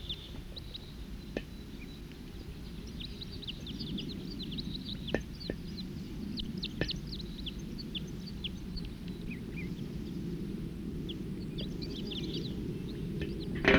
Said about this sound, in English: Stop. They're recording wild birds. Song.